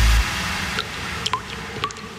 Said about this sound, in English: That drip in your bathroom? Yeah, that's not a relaxing water feature.